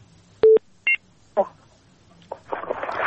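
Telephone line tones as a listener's call connects to a call-in show: two short electronic beeps in quick succession, then a few clicks and a swelling burst of line noise.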